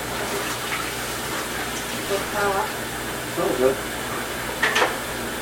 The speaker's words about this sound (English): I'm going to rinse this out of another cotton shirt.